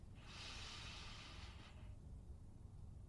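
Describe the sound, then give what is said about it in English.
A single deep inhaled breath taken during a guided visualization: one long, airy intake lasting about a second and a half, set over a steady low background rumble, with no talking. “And then I take a deep breath.”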